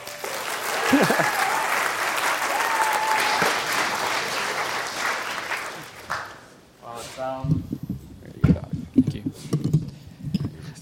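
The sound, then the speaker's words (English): An audience applauds at a recognition ceremony. The clapping is loud, dense and sustained for about six seconds, then fades out as a man begins speaking. “Let's give Rick a hand, by the way.”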